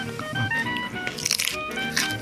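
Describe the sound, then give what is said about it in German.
Biting and chewing a raw carrot gives a run of crisp, wet crunches. They come in irregular bursts, with the loudest cluster in the middle and another near the end. “Ich esse gerade die Möhre.”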